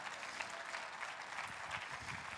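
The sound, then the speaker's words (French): Applause from an audience at a sermon on the resurrection, a steady wash of many hands clapping that is continuous and quite faint throughout. “Voulez-vous applaudir la résurrection avec moi?”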